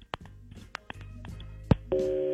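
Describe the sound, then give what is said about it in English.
A telephone call being dialed: a few sharp, irregular clicks sound over a low hum, then a steady tone with two pitches starts near the end and holds. “All right, let's make the phone call on War of the Roses.”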